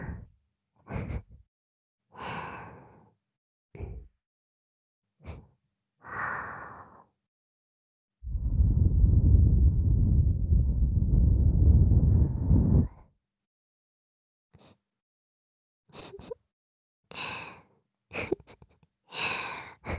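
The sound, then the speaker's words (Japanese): Breath is blown softly into a microphone as one long, airy puff lasting several seconds. Scattered short, breathy sounds come before and after it. “君が寝てるか確認したくて息ふうふうしちゃった。”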